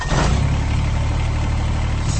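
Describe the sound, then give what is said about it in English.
A Kubota BX Series subcompact tractor engine runs with a steady, low, even rumble, heard alone and unchanging for a couple of seconds. “That's the sound of a Kubota BX Series, America's top-selling subcompact tractor for over 11 years running.”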